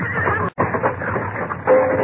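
A saddled horse whinnies in a rough, breathy burst that breaks off for a moment, then carries on with a harsh, fluttering neigh and ends on a short, higher tonal cry.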